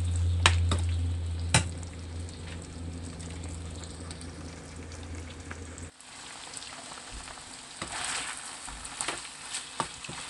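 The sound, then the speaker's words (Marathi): Chicken frying and being stirred on a high flame, a crackly hiss with a few sharp clanks, over a low hum that cuts out partway through. “तुम्हाला पूर्णपणे जर chicken dry हवं असेल तर तुम्ही आता flame हायवर ठेवून परतू शकता.”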